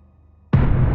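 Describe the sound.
A floating orb of blood explodes: a sudden loud blast bursts in about halfway through after near silence, then a dense, rumbling roar holds at full strength to the end.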